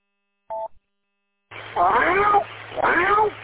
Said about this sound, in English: Now the cat made an appearance. Are we going to get a live meow?